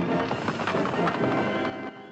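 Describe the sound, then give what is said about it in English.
Horses gallop as they pull a stagecoach through a rocky ravine, producing a dense, steady clatter of hoofbeats that stays loud and drops slightly near the end. “The stagecoach passes through a rocky ravine. Suddenly, the Indian chief calls his men to stop. The coachman halts his horses.”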